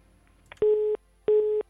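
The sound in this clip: Busy tone after a call drops on a phone-in line: two identical steady, mid-pitched beeps, each about a third of a second long, separated by a short silence, with a faint click just before the first.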